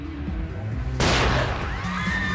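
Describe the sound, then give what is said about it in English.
A pistol is fired once at point-blank range: a single sharp bang that cuts abruptly through steady background sound and leaves a brief ringing tail. “The guy pulls a gun and shoots DL in the chest at point-blank range.”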